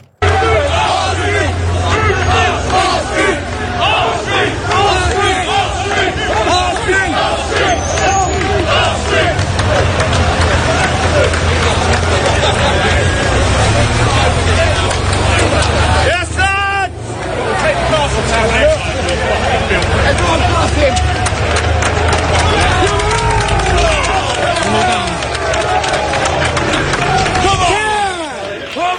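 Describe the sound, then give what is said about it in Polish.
A protest crowd fills the streets of Dover with loud, continuous babble, many voices shouting and talking over each other, with occasional louder yells and bursts of movement throughout. “I tak brzmiały ulice, to akurat Dover.”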